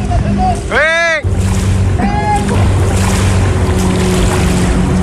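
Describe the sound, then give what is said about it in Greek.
Inflatable boat speeding across open water straight toward a shallow reef, a loud steady engine drone mixed with rushing water and wind noise, with voices briefly heard over it. “σήμερα το πρωί η κάμερα του Sky κατέγραψε αυτό το φουσκωτό να κινείται με μεγάλη ταχύτητα κατευθείαν πάνω στην ξέρα”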